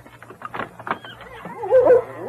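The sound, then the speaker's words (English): A big female husky whimpers and yips: a few short, sharp yelps come first, then a louder, higher drawn-out whine near the end. “that big husky I bought from Jim Tolan. She's one of the finest dogs I've ever had.”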